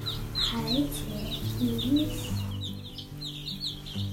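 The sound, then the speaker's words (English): A hundred newly arrived baby chicks peep steadily on a New Hampshire seacoast farm at feeding time, giving many quick, high chirps over a low, steady murmur of voices. “And we just got 100 baby chicks yesterday, so we're out feeding them.”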